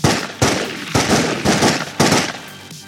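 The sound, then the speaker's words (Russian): A pistol emptying its magazine in a quick series of loud, sharp gunshots, several cracks spaced about half a second apart whose ringing tails run into one another, with no voices. “вынимает из кобуры пистолет и разряжает обойму по черному плащу”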